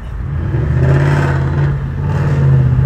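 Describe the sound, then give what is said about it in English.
A truck passes by with a steady low engine rumble and broad road noise, loud and continuous over the whole stretch. “some truck just passed me and I guess he had to interfere”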